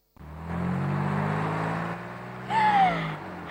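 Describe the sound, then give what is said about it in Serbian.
Car engine runs with a steady low rumble and dense hum, rising to a brief, higher whining tone near the end. “Palim kola, hvataj gaz.”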